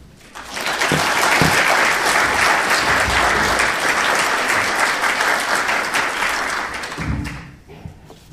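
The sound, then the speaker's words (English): Audience applause welcomes a speaker onto the stage. It swells quickly after a quiet start, stays loud and dense, then tapers away near the end with a few scattered claps and thumps. “I'll ask you to put your hands together and give Ivan a good badge of welcome.”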